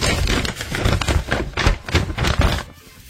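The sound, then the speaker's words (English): Crisp paper rustling as a festival brochure is unfolded and folded, with several quick crackling bursts in close succession that fade near the end. “Unfolding and folding a brochure is what it was.”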